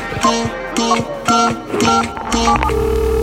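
A telephone ringtone melody repeats in short, bright, tonal phrases for a call that goes unanswered, ending in a steady held tone.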